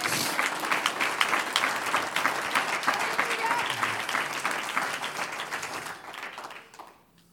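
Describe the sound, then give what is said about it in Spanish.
A church audience applauds during a sermon: dense, lively clapping that holds steady for several seconds, then thins and fades out near the end. “un aplauso al Señor.”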